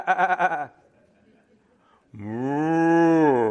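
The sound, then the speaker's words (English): A cow moos in a long, steady, low-pitched call lasting well over a second. It is preceded by a short, quavering, bleat-like call and a brief near-silent gap. “Little oxen, a little cow comes by.”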